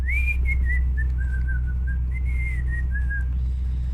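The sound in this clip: A man whistles a wandering tune to himself while others play cards and drink wine; the melody glides up and down in a clear, moderate-pitched line, unaccompanied by talk, over a steady low hum.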